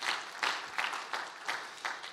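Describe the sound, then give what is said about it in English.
A church audience applauds its pastor, steady clapping that swells in regular, rhythmic pulses and holds at a moderate level throughout. “Why don't you give the Lord a big, big clap for your pastor? Come on.”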